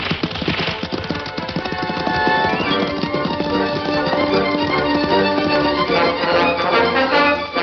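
The Lone Ranger's and Tonto's horses gallop off in a radio western, with rapid, steady hoofbeats pounding under loud orchestral music.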